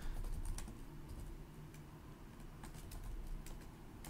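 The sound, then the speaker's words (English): Rapid clicking of keys on a computer keyboard as a web search is typed, with bursts of sharp keystrokes over a steady low background rumble. “Let's see what it says. Let's do a quick search here.”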